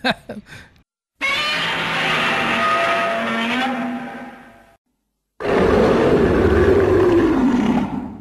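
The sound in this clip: A giant-monster roar sound effect: a brief opening burst, then two long, loud, harsh roars separated by silence.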